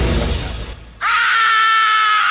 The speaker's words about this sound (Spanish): El grito es libertad. El grito es libertad.